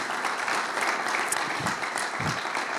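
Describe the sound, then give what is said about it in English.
An audience at a church gathering applauds to welcome guest speakers: a steady, lively patter of many hands clapping at an even level for the whole stretch, with no talk over it. “So let's put our hands together and make them really welcome.”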